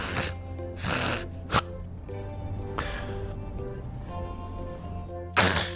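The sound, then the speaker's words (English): A voice imitating obstructive sleep apnea snoring and choking in a heavily built man lying on his back: a few loud, raspy snorting bursts separated by pauses, over a low steady background. “And he said, that's an apnea, which means without breath. The guy's upper airway is closed.”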